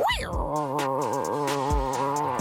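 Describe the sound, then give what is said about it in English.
A good strong tiger growl, one rough, wavering growl held for about two seconds at a steady, fairly loud level. “A good strong tiger growl.”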